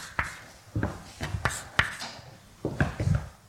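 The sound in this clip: Scratchy hand strokes as a diagram is drawn during a physics lecture on the Berezinsky-Kosterlitz-Thouless transition: a few irregular tapping and rubbing marks over a low background hum, with no speech.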